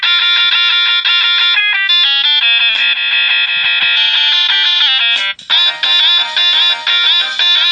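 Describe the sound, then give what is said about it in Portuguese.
A MIDI music file plays from a phone with a synthetic guitar timbre: a loud, bright, steady melody of sustained notes, a brief break just past the midpoint, then quicker choppy notes. “Então o Pierluigi acertou, porque esse é um arquivo MIDI bem produzido. Ele está bem... A partitura dele foi bem elaborada. Outros nem tanto. E, né? E colocado com timbre de guitarra mesmo.”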